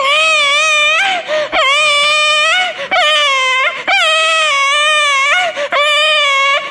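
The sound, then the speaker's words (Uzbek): An infant cries in loud, repeated wailing bursts, each long and high-pitched with a wavering tone, broken only by short gasping pauses. “Deb turgan ekan chaqaloq yig'lab qopti.”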